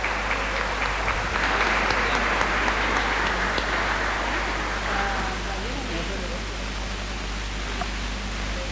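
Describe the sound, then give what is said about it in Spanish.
Sustained applause from a gathered audience at a religious novena celebration, a loud dense wash of clapping that swells early, then slowly thins and fades over several seconds. “El aplauso bien fuerte, fuerte.”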